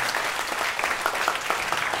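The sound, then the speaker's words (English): Audience applause at a live event, a dense, continuous burst of many hands clapping together, steady in loudness from start to finish. “Round of applause for Chris Walton.”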